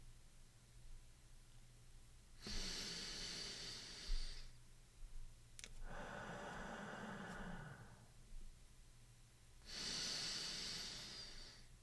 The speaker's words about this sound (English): Count 3 seconds for the inhalation and 3 for the exhalation. Let's do this together.